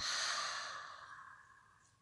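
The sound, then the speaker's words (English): A deep cleansing breath is exhaled through the open mouth as one long, airy sigh that starts loud and fades away steadily over about two seconds. “Again, invite a deep cleansing breath into the body. Open the mouth, release, let it go.”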